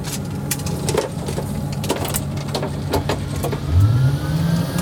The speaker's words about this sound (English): So that's the fans cranking up. It's good to use the restroom as the system cranks up and while you're using it.